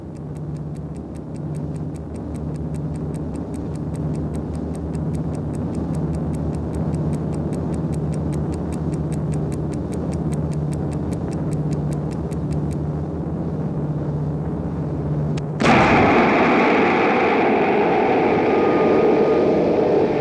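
A small travel alarm clock ticks inside a suitcase aboard an airliner: rapid, even, faint ticks run over a steady low engine drone, then stop, and moments later the drone shifts abruptly to a louder, brighter roar.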